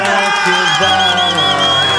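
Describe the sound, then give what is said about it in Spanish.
Cheering, whoops and applause in a radio studio welcome an interviewee from a charitable foundation: a dense, lively burst of shouting voices over a steady wash of clapping that holds at the same loudness throughout. “y la recibimos como ella se lo merece y como todos los como todos aquellos entrevistados aquí en Rumba FM, con grito, aplauso y algarabía, sí señores”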